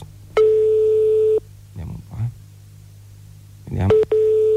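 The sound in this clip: Telephone ringing tone: a steady, mid-pitched electronic beep lasting about a second, then people talking over a quiet line, then the tone sounds again.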